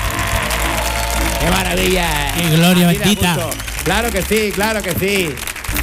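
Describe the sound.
A studio audience at a live show recording in an auditorium applauds and cheers in a steady, dense wash. A man's excited shouting rides loudly over it.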